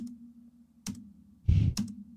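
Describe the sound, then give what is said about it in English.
A few quick clicks and taps imitate typing on a computer keyboard, spaced irregularly over a low steady hum, with one slightly longer, noisier burst among them. “she's sitting down at the little table there with the computer, and she's typing, and she's typing like, you know, like this.”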